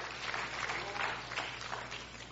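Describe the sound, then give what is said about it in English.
Audience applause in a church, a faint, steady wash of many hands clapping at once with no clear individual beats. “Come on, give Jesus a big hand clap.”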